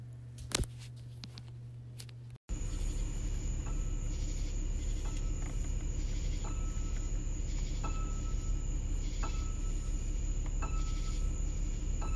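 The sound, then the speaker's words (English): Crickets chirp in the background with a steady, high-pitched trill that starts after a brief cut near the beginning and holds evenly to the end, with no talking. “They're going to hear the crickets in the background, too.”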